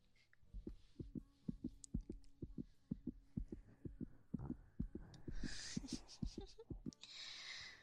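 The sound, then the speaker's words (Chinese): A fast heartbeat thumps as many quick, low, soft beats in a steady rhythm, with a faint breathy hiss near the end. “怎么搞的？心跳这么快啊？紧张啦？”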